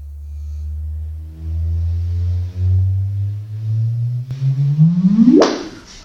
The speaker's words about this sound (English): What you're hearing is the first recorded sound of two neutron stars colliding.